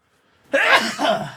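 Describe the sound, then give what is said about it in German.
A single sneeze from one person, a sudden forceful burst that trails off into a breathy tail. It is loud and heard alone, with silence just before it. “Und ich muss niesen.”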